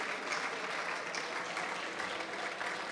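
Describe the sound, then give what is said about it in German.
Applause from the audience at an entrepreneurship summit award ceremony for a founders' competition in Berlin: a dense, steady patter of many clapping hands that holds at an even level for the whole clip. “bleibt noch bitte bei uns und der Applaus gehört dir.”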